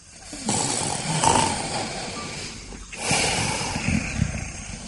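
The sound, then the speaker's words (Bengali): Snoring from a drunk man asleep with his mouth open in a lounge chair: two long, loud, raspy breaths, each lasting over two seconds, with a short pause between them. “খানিক পরেই ঘরের ভেতরে নাক ডাকার শব্দ।”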